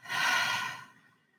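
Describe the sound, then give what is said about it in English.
A deep breath taken during a guided breathing exercise: one long, airy exhalation that swells quickly, holds briefly and then fades out, heard alone. “Second breath in and out.”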